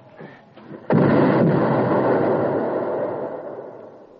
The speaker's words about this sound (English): What happened? Landmine.